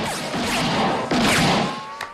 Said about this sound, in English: he draws his weapon, spins round, and shoots four candles off a candelabra.